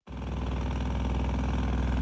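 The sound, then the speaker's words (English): Heavy engine noise from construction machinery at a site near a VA clinic in Marina, where a crew is paving the way for a new building. It is a continuous, even, low rumble at a steady idle, with no breaks. “Jackhammers pound away and tractors back up as a construction crew paves the way for a new building near the VA clinic.”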